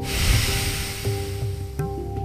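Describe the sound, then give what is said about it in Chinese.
A deep breath drawn in and then fully exhaled during a guided breathing exercise, a breathy rush that is fullest early and thins out, with steady tones held underneath. “我先示范一次，先深吸一口气，吐干净。”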